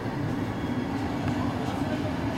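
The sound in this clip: A train at a station platform gives a steady, dense rumble that holds at an even loudness throughout, with no clear individual clacks.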